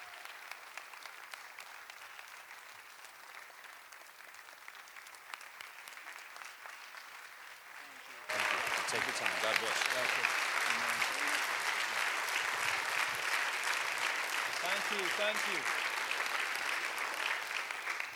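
A church audience applauds as a pastor and his wife are welcomed. Lighter clapping swells abruptly about halfway into loud, dense applause that carries on to the end.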